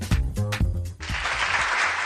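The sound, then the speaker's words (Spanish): Applause for the Valladolid Book Fair bursts in after a brief voiced sound and keeps going as a dense, even wash of clapping until the end. “Y este aplauso porque seguimos inmersos en la Feria del Libro de Valladolid”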